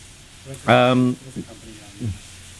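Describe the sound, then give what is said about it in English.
Burgers sizzle as they cook, giving a steady, faint frying hiss beneath brief bursts of talk. “there's the sizzle we were looking for.”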